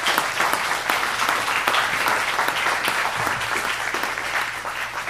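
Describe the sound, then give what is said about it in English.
An audience's steady, full applause welcomes a guest speaker to a church, with many hands clapping at an even level throughout, with no break and no voices. “So as he does, would you just welcome him? Give him a hand for being here today.”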